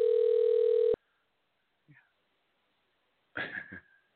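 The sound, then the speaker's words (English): A steady telephone dial tone sounds loudly for about one second while a call is placed, then cuts off abruptly. A brief faint sound and a short burst of voice follow after a silence. “Let's just dial the digits.”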